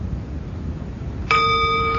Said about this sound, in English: he calls it the mindfulness bell